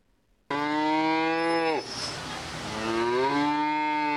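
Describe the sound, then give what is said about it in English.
Cattle mooing in the beef barn at the Adams County Fair in Nebraska: a long, loud, low moo that drops off, followed by a second call that rises and holds. “NCN's Brandon Shanahan has a story from the beef barn.”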